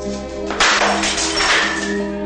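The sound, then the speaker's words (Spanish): A glass of liquor hurled against the floor shatters in a drama film: one sharp crash followed by a bright scatter of breaking fragments that fades over about a second and a half above a steady low hum. “Se bebe el vaso con licor que Ignacio dejó sobre la encimera sin dejar de llorar. Lo tira contra el suelo con rabia y se tapa la cara desesperada.”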